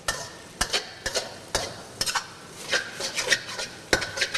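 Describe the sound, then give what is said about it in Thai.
A spatula scrapes and stirs noodles in a pan with repeated, evenly spaced strokes that later turn looser and more irregular, over a faint sizzle. “เทคนิคง่ายๆไม่ให้เส้นขาดก็คือจับตะหลิวเนี่ยครับลงแล้วค่อยๆ คนอย่างนี้นะฮะเพื่อที่จะไม่ให้เส้นติดกัน”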